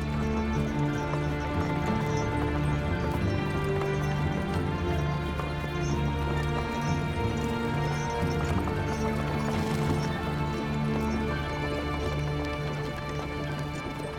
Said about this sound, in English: The wagon comes to a halt. You peek outside of the covered wagon